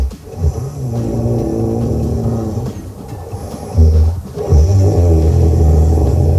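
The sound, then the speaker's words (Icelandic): Snoring likened to a motorcycle working up through its gears from first to sixth: a loud, continuous, engine-like rumble with a steady low drone that dips briefly and then surges back stronger twice in the later half. “sendir inn hrotu og hann segir hún byrjar í fyrsta gír og endar í sjötta. Hlustum á þetta.”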